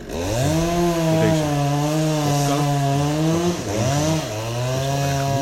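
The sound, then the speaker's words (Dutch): Chainsaw cutting down trees in neighbouring gardens: a loud, continuous buzzing engine whine that wavers in pitch, dips briefly near the middle, then revs up again, with no talk. “En het eerste wat die doen is al het groen uit de tuinen trekken en elke boom omzagen.”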